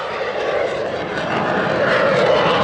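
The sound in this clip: A plane flies past overhead with its aircraft engine droning loudly and steadily, and the roar swells slightly toward the end.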